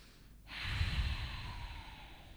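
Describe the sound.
A deep breath is drawn in, a single soft, airy inhale that starts abruptly and then stretches out and tapers over about two seconds, quiet and alone.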